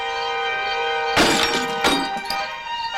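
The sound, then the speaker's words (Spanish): A pickup truck's headlight glass is smashed: two sharp crashing, shattering bursts in quick succession cut through a steady tonal background. “Uno de ellos rompe el otro faro de la camioneta.”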